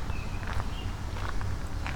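Footsteps walking outdoors on a windy day: a few soft, irregular steps land over a low, rushing wind rumble, with no talk.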